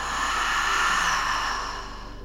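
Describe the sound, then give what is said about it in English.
A big, open, audible exhale through the mouth makes a steady breathy rush. It is sustained and fairly loud for about two seconds, then eases off slightly at the end. “Together, let's take a deep inhale through the nose. And a big, open, audible exhale through your mouth.”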